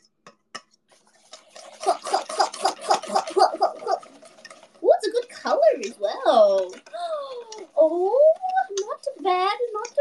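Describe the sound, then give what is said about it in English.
A whisk beats a mixture in a bowl with rapid, rhythmic clinking strokes for about two seconds. People then talk over a few lighter kitchen sounds. “Whisk. Oh, that looks better. Consistency much better!”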